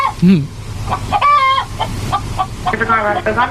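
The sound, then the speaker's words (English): Clucking of a loose chicken at a liquor store, warbling, nasal squawks with one drawn-out call midway and a louder run of clucks near the end. “Chicken says yes.”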